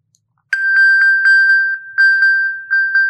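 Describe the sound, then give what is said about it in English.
A phone rings with a bright, bell-like chime after being pinged from a watch so it can be found. The clear metallic tone pulses quickly and keeps going, loud and on its own. “Every morning it starts with the bells. That is the sound of my mom looking for her phone.”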